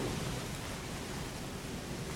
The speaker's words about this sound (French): Nous allons traverser une tempête. Elle arrive droit sur nous.